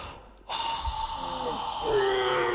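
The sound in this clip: Forceful breath blown out by a character in the Popolvar fairy tale: a sudden, loud, sustained whooshing exhale that swells toward the end, with voiced sounds mixed in.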